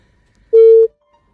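Single telephone tone as a call is placed on a radio call-in line: one short, steady, mid-pitched beep lasting about a third of a second, heard alone.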